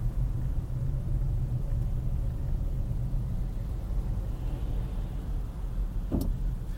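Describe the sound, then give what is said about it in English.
Road traffic heard from a hotel room: a steady, low rumble of passing cars runs throughout, with a brief sharp click near the end and no voices. “Why is there traffic right now”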